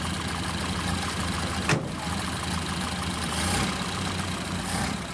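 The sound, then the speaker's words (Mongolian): A car engine drones steadily as the car starts moving, with one brief, sharp knock early on and a slight swell near the end. No voices are heard. “Машин тэрэг хөдлөлээ.”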